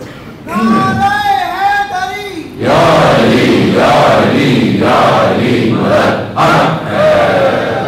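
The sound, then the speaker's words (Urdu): A single voice leads, then a large crowd chants slogans back in loud, rhythmic bursts of many voices in unison that recur for several seconds. “عزیزان محترم آپ نے بڑے نعرے لگا لیے”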